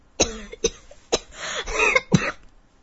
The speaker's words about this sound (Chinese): 他一口吐出香烟，拼命的咳了起来